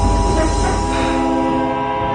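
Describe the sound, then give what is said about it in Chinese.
A train gets slowly under way, a steady low rumble and rolling rail noise with sustained tonal hums, loud and continuous throughout without any voices. “列车缓缓地启动了”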